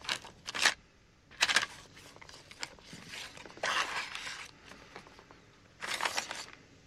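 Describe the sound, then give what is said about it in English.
A bare foot pulling a vinyl record out of its paper jacket, heard as several faint, scratchy bursts of paper rustle and sliding friction separated by near-silent pauses, with no voices. “It reaches into a paper vinyl jacket. Using the big and long toes, the foot pulls out a record.”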